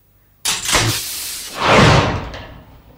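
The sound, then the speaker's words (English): A key turns in a lock and a doorknob swivels on an oak-panelled room's only door: a sudden sharp clack, then a rough, sustained scraping that swells once more before slowly fading. “A key in the lock. The doorknob swivelling.”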